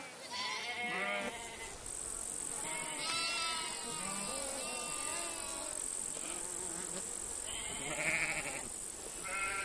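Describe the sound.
Goats bleat in a nomads' herd on open grassland. Several wavering, nasal bleats overlap and follow one another, some higher and some lower. A steady high-pitched buzz runs underneath.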